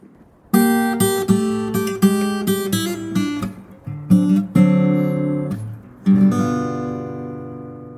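Blues guitar lick in the key of G that leads into a 12-bar: a quick run of plucked notes over a repeated low bass, a few sharp accents, then a full chord left ringing and fading.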